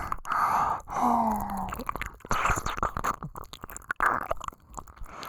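Wet ear licking in a nurse-themed ASMR roleplay: soft, moist slurps and smacking mouth sounds come in an irregular series of short bursts, fairly faint, with no talk over them.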